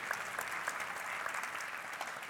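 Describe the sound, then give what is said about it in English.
Audience applause in a church: steady, even clapping from many hands, fairly soft and unbroken for the whole stretch. “Let's give a round of applause to him, too. Come on.”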